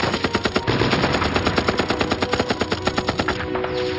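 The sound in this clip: Machine gun fire in a military attack on a mountain pass: a rapid, steady stream of loud, evenly spaced shots that continues for the whole clip.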